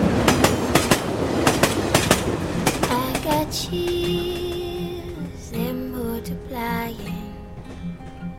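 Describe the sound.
A train carriage clatters over the rails in a steady clickety-clack rhythm of sharp knocks, then gives way to smoother sustained tones and a softer rumble.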